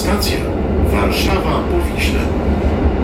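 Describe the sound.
Loud, steady rumble and clatter of a train crossing a steel bridge over the Vistula river. It continues without a break, and a voice talks over the rolling noise.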